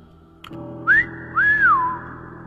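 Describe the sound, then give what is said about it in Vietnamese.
A man whistles two clear phrases: a brief rising note, then a longer one that climbs and glides back down. A soft thump comes just before, and a low steady hum sits underneath. “Miệng của gã huýt sáo, âm thanh của gã như là tiếng của một con quỷ từ cõi ngục.”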